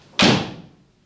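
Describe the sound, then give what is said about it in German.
A door falls shut into its latch with one sharp, loud slam that decays over roughly a second, with no voices around it. “Und die Tür fiel hinter ihr ins Schloss, noch ehe die Familie zur Besinnung kam.”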